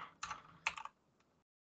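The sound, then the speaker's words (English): Typing a date into a computer makes two quick bursts of keyboard clicks followed by a single soft tap. All of it is quiet and ends in silence. “February, what day were you looking at? The 21st. Let me type that in real quick.”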